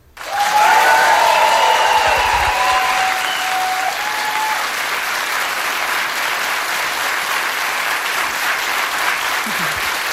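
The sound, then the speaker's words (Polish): Loud studio audience applause from a full house at an evening radio-studio event starts abruptly and stays as a dense, steady wash of clapping for about ten seconds. “nie zrobiliśmy próby oklasków dla naszej fantastycznej tutaj grupy, więc na wszelki wypadek dla mojego spokoju.”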